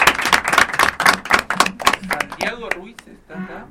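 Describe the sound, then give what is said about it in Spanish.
Applause from a group of people at the close of a school event, with dense, uneven hand claps for about two and a half seconds before a voice starts talking. “nos despedimos con un gran, gran aplauso para todos nosotros.”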